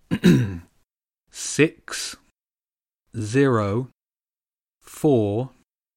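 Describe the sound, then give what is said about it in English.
Throat clearing from a man about to read out lottery numbers: a few short, rasping bursts, then two longer voiced, grunting rumbles, each separated by silence. “He cleared his throat and read out each number clearly.”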